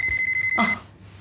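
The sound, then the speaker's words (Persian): A telephone rings with a rapid train of high, steady electronic beeps pulsing evenly, then cuts off abruptly, leaving a quiet hiss. “یاله تلفن زنگ بده، بینم باباته”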